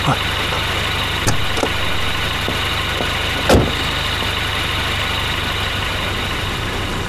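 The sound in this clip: A car engine running at a steady low hum with no change in pitch, broken by a few brief knocks or clicks.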